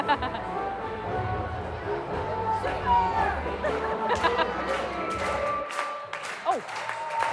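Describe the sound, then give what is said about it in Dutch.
Audience applause for an act at a children's playback show: steady, fairly loud clapping through the whole stretch, mixed with crowd chatter and voices. “Ik wil graag een heel hartelijk applaus voor de Zwarte Schapen.”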